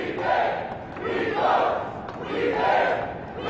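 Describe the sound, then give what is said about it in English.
Crowd chanting from dozens of e-cigarette supporters and shop owners rallying outside the State House, the voices rising and falling in three steady rhythmic swells. “That is the sound of dozens of e-cigarette supporters and shop owners rallying outside the State House this week”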